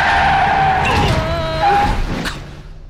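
A car skidding with its handbrake pulled, tires letting out a loud, wavering squeal that dips in pitch over a low vehicle rumble, then fades away toward the end.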